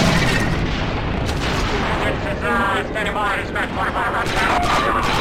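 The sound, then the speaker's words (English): A detonated charge explodes in a video game, a heavy booming blast with dense rumbling and crackling debris noise that fills the whole stretch at high loudness, dipping only briefly before carrying on. “The charge is set and ready to detonate. It's all yours, boss. Alright, back up. Anytime, boss. Go ahead and punch it.”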